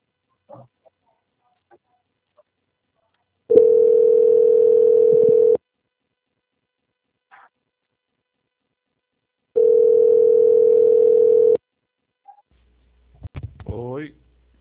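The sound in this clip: A telephone tone plays while a call is being transferred: two steady, mid-pitched tone bursts of about two seconds each, separated by silence. A brief voice follows near the end.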